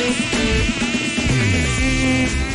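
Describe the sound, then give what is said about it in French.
A human voice imitates a buzzing mosquito with a loud, continuous nasal whine whose pitch wobbles and glides up and down without a break. “arrêtez d'imiter le moustique, vous le faites très mal.”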